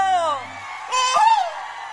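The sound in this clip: Group of people yelling together on cue in a farm field: a single falling call, then a loud, drawn-out collective shout that swells and fades.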